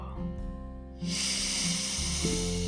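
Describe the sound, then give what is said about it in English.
A calm breath in through the nose is followed by a long, steady, airy exhale through the mouth that hisses evenly for over a second. A softer, tonal stretch comes before it. “breathing in through the nose, pausing for just a moment, and then exhaling through the mouth, like so.”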